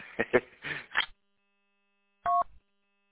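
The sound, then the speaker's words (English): Touch-tone DTMF beeps dialing an amateur radio link node: a few rapid tone bursts in the opening second, then silence and one clear, steady two-tone beep. “I'll dial it in with my All-Star node, and I can use any radio then.”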